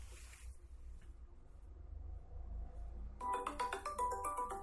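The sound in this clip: A mobile phone ringtone for an incoming call cuts into a quiet class: a bright melodic tune starts abruptly near the end and plays loudly over a low background hum.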